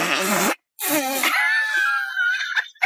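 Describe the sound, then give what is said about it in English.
Farting in the middle of a yoga session: a couple of short, rasping, buzzy blasts, then a long, high, squeaky drawn-out one that wavers before cutting off. “because this whole podcast could be about bodily functions. It's about farting.”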